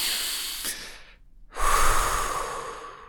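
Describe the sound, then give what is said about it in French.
A person breathes deeply to relax: a long, airy inhale fades out, a brief pause follows, then a fuller, louder exhale streams out and slowly tapers away. “Alors déjà, on va commencer par respirer.”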